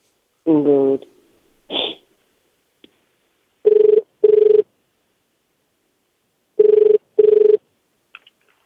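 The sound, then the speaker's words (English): A telephone ringback tone on an international call placed to Japan: two double rings, each a pair of short, steady mid-pitched buzzes, separated by a pause and preceded by brief voice sounds. “All right. We're dialing.”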